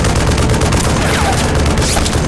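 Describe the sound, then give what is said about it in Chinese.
Continuous gunfire during reconnaissance by fire in a combat scene: a loud, dense barrage of overlapping shots and blasts with no pauses. “继续射击”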